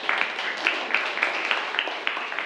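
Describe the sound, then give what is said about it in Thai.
Classroom students clap for a classmate after the classmate answers a question, a dense run of many overlapping claps that stays steady and fairly loud for the whole stretch, with no voices over it. “ปรบมือให้เพื่อนหน่อยนักเรียนนะครับ”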